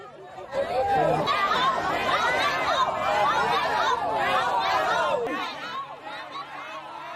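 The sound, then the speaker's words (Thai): A crowd of about 300 villagers, joined by schoolchildren, protests against an asphalt plant being built in Than Prasat subdistrict, Non Sung district. A loud, steady hubbub of many overlapping voices continues throughout, with a few raised calls. “นี่เสียงชาวบ้านนะเราไม่เอาเราไม่เอานะคะมากันประมาณ300คนนะคะ”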